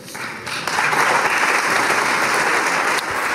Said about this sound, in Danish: Ja, det her, det er lyd fra det ungarske parlament i dag, hvor man har stemt for at rulle anti-LGBTQ+-lovgivningen tilbage.